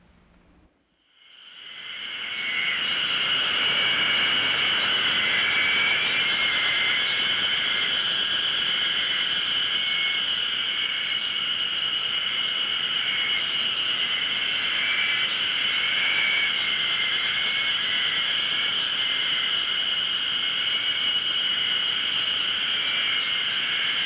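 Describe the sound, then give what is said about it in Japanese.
A chorus of Ezo haruzemi spring cicadas singing in a Hokkaido forest swells in after about a second into a loud, dense, shrill drone that holds steady to the end. “これ北海道のセミの鳴いてる音、 エゾハルゼミの鳴く音ですね。”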